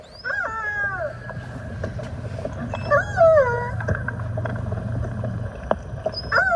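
A two-year-old male orca calf calls for its mother, captured by a hydrophone: three bursts of high, wavering whistle-like cries with bright harmonics rise and fall in pitch over a steady low underwater hum.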